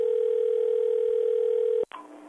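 A steady telephone tone sounds on a call to the Ogden, Illinois police department, holding one even pitch before a sharp click as the line connects.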